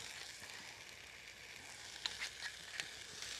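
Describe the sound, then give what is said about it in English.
Onions frying in a little olive oil: a faint, steady sizzle with a soft crackle, broken by a few small pops toward the end. “We're going to put some onions in. So a little bit of olive oil.”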